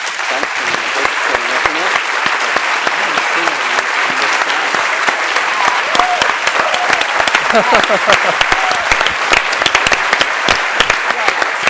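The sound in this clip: Loud audience applause welcomes a film director back to the stage, with crisp individual claps standing out in a steady, thick wash for about twelve seconds, and scattered voices rising over it.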